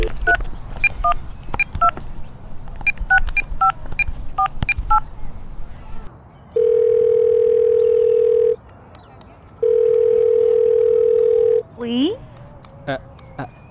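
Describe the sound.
Telephone dialing and ringback tones as a call is placed: a rapid series of short, clear keypad beeps, then two long, steady mid-pitched ringing tones separated by a pause, followed by a brief rising chirp.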